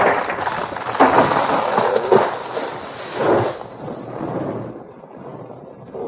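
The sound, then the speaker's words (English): Boulders strike a cabin and its weakened side collapses, bringing down the rafters and roof: a few heavy crashing impacts within a rough rumbling roar that gradually fades toward the end. “a boulder larger than the others struck the cabin squarely, and the weakened side collapsed, bringing down the rafters and the roof.”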